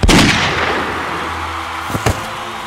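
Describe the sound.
A gunshot, the kill shot, fires as one loud, sharp blast with a long decaying tail, then two brief, fainter cracks just before the end.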